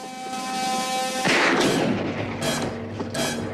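Gunfire erupts in a tense film chase along a jetty. A held musical tone is cut off by a loud, sharp blast, and a few more heavy reports ring out after it.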